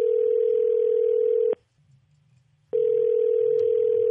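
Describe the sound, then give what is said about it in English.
Telephone call tone as a call is being placed: a loud, steady, mid-pitched electronic tone that cuts off for about a second, then resumes unchanged. “We're going to get him on the phone.”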